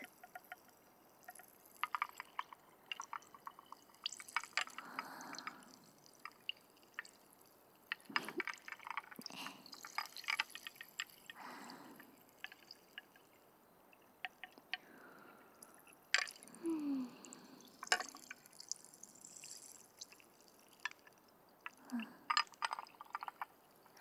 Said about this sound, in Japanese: 氷のコロコロって音が涼しげで気持ちいいね。